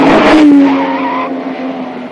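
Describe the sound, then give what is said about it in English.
Tires skid as a small pink convertible speeds through a street, a loud, high screech over the engine roar that gradually fades. “a small pink convertible, with another gorilla behind the wheel, charges in his direction from another street.”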